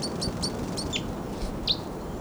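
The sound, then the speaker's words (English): Birds calling as they fly and swoop down: a few short, high chirps and tweets rise above a steady background hiss. The calls are fairly faint, and no one speaks. “Birds may be coming down. Oh, there they go. Well, here they come. Okay, now I'm pointing at one of the birds.”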